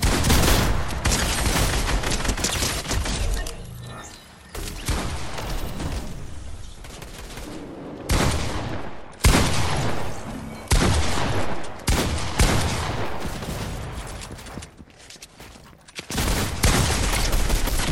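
Gunfire in the video game Fortnite pours out in long, dense, loud bursts of rapid shots, separated by a few short lulls.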